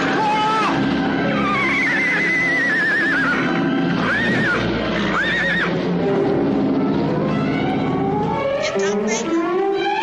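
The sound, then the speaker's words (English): A horse neighing after taking a serious fall. It gives several loud, wavering whinnies with shaky rising and falling pitch, set over a dense, busy background. “that horse took a serious fall”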